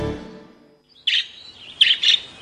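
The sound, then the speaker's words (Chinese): Parrot calling in three short, sharp, high-pitched chirps after a quiet stretch, clear and alone with no talk. “爸爸，那是什么叫声？ 哦，那是鹦鹉的叫声。”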